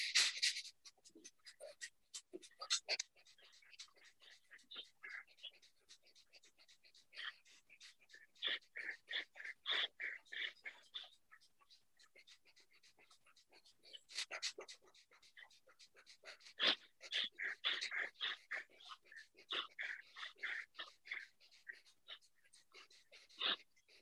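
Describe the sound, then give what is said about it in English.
Rapid breath-of-fire breathing, forceful puffs in and out through the nose as the belly pumps during a breathing exercise. Many quick, sharp, fairly faint breaths come in fast rhythmic runs with brief pauses between them. “So breath of fire, in through the nose and out through the nose. I'll call the retentions. So pumping the belly button into the heart.”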